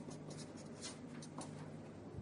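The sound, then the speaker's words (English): Faint scratchy strokes of a pen writing a single word on a board, a few short quick squeaks over a steady low hiss. “And on that cloud, we're going to just write the word vision.”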